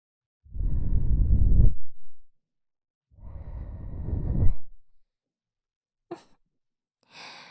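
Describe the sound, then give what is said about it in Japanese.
Gentle breathy blowing on an ear to cool it, two long soft whooshing puffs of air with a pause between, followed by a few faint brief breathy sounds. “ふうふうして、冷ましてあげないと。”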